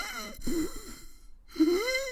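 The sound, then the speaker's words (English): A person imitates laboured breathing with two long, strained, wheezing breaths, each with a rising then falling voiced rasp, separated by a brief pause. The breaths are fairly loud with no other sound. “I felt my breathing turn into like this, like,”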